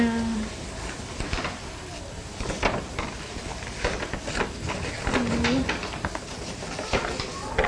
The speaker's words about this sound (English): This one. Bird. Oh, out there.